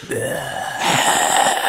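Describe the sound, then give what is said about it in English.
A voice imitates heavy, gross mouth breathing with a drawn-out breathy exhale and a low groaning tone, then a louder, noisier breath, continuous and close for under two seconds. “Just breathing.”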